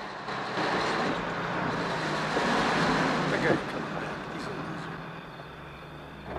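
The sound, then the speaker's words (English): A truck with six headlights backs up along a driveway in darkness, giving off a steady, loud rumble of engine and road noise that swells slightly midway and then eases off. “The truck's six headlights blaze fiercely in the darkness as the vehicle backs up along the driveway.”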